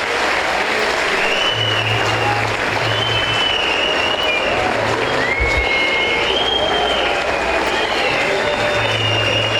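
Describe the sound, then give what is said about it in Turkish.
A crowd applauds a football team's coaching staff, players and club workers with steady, loud, dense clapping that fills the whole stretch without pause, with faint low hum and brief murmurs beneath it. “başta Okan hocamız olmak üzere, teknik ekibimize, futbolcu kardeşlerimize ve tüm çalışanlarımıza güçlü bir alkış göndermenizi rica ediyorum.”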